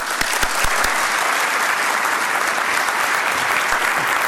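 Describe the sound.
An audience at the Hope Center in Dallas applauds to welcome a speaker. The clapping is dense, steady and sustained, with a few sharper individual claps standing out near the start.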